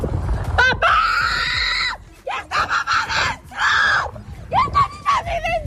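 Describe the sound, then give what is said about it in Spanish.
A woman screams desperately as flames close in on her house in Villa del Prado. Loud, anguished, high-pitched cries come in several bursts, some long and sustained and others short and broken. “alguno de los vídeos como este, por ejemplo, de una mujer que chilla desesperada viendo cómo las llamas van a alcanzar su casa en Villa del Prado”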